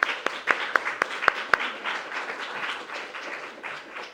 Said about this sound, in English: So if you could join me, yes, in applauding her.